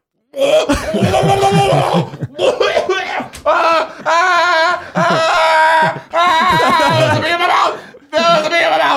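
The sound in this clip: A person imitates coughing and choking after swallowing a bee, making several harsh, throaty voiced bursts separated by short pauses.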